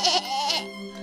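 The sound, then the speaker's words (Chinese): A person imitates a sheep's bleat with a short run of wavering, nasal bleating calls, loud and alone without other talk. “就赶紧使劲地学羊叫。”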